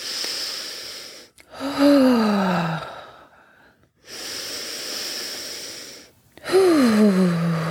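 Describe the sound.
Deep breathing during a calming group exercise: two long breathing cycles, each a breathy inhale followed by a loud, drawn-out sigh that falls in pitch on the exhale.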